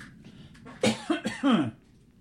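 A short, tight run of about four harsh, throaty coughs packed into roughly a second, loud against a quiet background.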